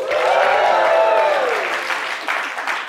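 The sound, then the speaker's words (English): A live conference audience at a fintech event in New York applauds and cheers. Loud, dense clapping and shouting hold steady for the whole stretch, easing slightly toward the end. “Make some noise, New York!”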